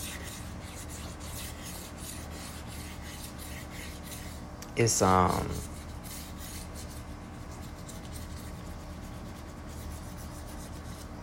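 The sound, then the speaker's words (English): Rasping rub of a selenite crystal wand, one short scraping burst lasting about a second, standing out loudly over a faint steady background before fading back to near quiet. “That's the wand. If y'all wondering what that sound is, that's the wand. My selenite wand that I'm using”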